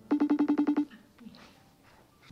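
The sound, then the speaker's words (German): Ringing of an incoming FaceTime video call: a rapid, evenly spaced run of eight short, bright tone pulses, followed by quieter low noise. “Mandalena Papageorgiou ruft ihren Mann Alexandros über FaceTime an”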